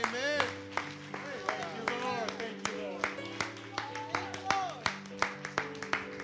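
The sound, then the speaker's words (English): A church audience claps in a brisk, steady rhythm, sharp hand claps layered over music and singing voices. “All right, y'all clap. Go ahead and clap.”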